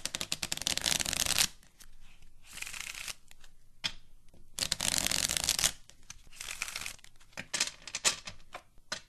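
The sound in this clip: A deck of playing cards shuffled repeatedly, with several loud riffling bursts separated by quieter handling and shorter flicks, and no voices.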